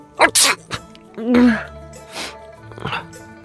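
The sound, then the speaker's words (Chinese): A voice acts out a quick series of sneezes: sharp breathy bursts and a voiced build-up, moderately loud, with a few short gaps between them. “展昭突然连着打了三个喷嚏”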